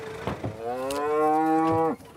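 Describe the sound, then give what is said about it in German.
Mother cows in a herd that includes Charolais moo while waiting for their calves. A few short grunts lead into one long, low, droning moo that stops abruptly. “Die Mutterkühe erwarten ihre Kälber.”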